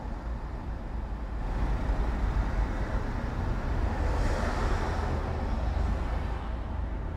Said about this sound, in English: That's the sound of city traffic from the inside of a car, roughly 80 to 85 decibels.